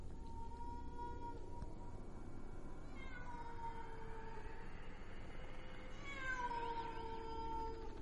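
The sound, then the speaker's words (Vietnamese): A pack of feral cats yowls outside in drawn-out, wavering meows and wails that rise and fall. The cries are faint throughout and sit over a steady low hiss, with the strongest calls near the end. “Ở bên ngoài, tiếng của bầy mèo hoang cứ kêu lên.”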